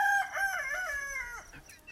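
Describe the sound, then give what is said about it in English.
A rooster crowing once: a single drawn-out, raspy call with a bright tone that falls away at the end. “What kind of rooster is that? I don't know. Fucking rooster.”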